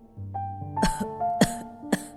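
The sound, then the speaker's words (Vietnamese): An ill, weak man coughs three sharp times at an uneven pace over a steady, sustained musical tone. “Người chồng gắng gượng ngồi dậy mà ho khụ khụ.”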